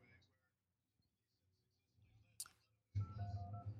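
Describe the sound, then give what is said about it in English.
Telephone speed dial tones: a short run of electronic beeps follows a sharp burst of noise, over a faint low hum. “Thank goodness for speed dial.”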